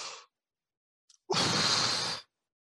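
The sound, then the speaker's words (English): A huge breath released in one loud airy rush lasting about a second, preceded by a short, fainter breathy sound and a couple of tiny clicks. “let's say you take a huge breath and you release the air and then see what kind of thoughts come in your head right after you release the air. So you go,”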